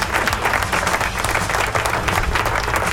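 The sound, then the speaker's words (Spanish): Applause from a live rock concert crowd at the end of a song, a thick, continuous roar of clapping with a heavy low rumble underneath, steady and loud for three seconds. “Aplauso.”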